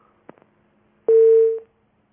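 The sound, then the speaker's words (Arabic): A steady mid-pitched tone comes over a telephone line after a call from Algeria disconnects. A few faint clicks come first, then one loud, unwavering tone holds for about half a second and cuts off. “انقطع اتصال أخونا أبو دجانة من يعني أمة الله من الجزائر.”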